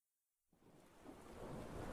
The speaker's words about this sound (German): Ein Sturm tobte über das Land. Es donnerte und der Regen fiel dicht vom Himmel.